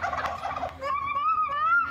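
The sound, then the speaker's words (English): Turkeys gobble in answer to a three-year-old child, a loud rattling burst of gobbling followed by a sustained, wavering higher call. “A three-year-old has a conversation with turkeys.”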